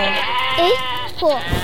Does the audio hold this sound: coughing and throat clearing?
no